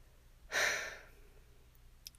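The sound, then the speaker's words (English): A single soft breath from a person sitting in a closet. It comes as a sighing exhale that rises quickly, fades over about half a second and leaves near-silence after it. “Do you like it when I breathe?”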